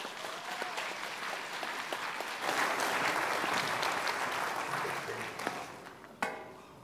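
Applause from a church audience welcoming a guest pastor to preach, a steady wash of many clapping hands that holds evenly for several seconds at a fairly soft level before ending.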